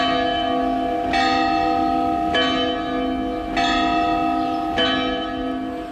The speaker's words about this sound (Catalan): I de les campanes, que són tot un patrimoni que hem de conservar i que ni tan sol sabem que tenim.